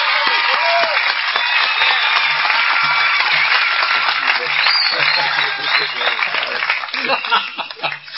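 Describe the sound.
Applause from an audience at a meeting welcoming a speaker to the front, dense clapping mixed with chuckles and laughter, with voices talking under it, easing off toward the end.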